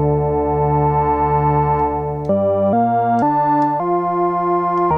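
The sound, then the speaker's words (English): Tones from a cheap, junky Casio electronic keyboard bought at a thrift store: a long, buzzy held note, then several shorter notes at changing pitches, each starting sharply, loud and steady with no voices. “I took a cheap, junky Casio keyboard that I bought in a thrift store for about $5.”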